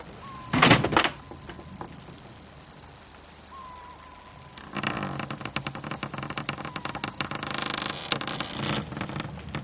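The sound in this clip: A door being opened and closed: a loud, sharp knock and clatter near the start, a quieter gap with a faint thin tone, then a long stretch of dense, crackling noise.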